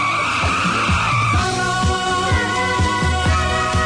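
A roaring motorcycle engine, loud and continuous, with a series of quick revving surges that each dip in pitch, over a steady mechanical drone.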